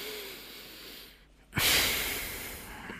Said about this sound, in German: Und wenn ihr möchtet, könnt ihr dann jetzt einmal tief ein- und ausatmen.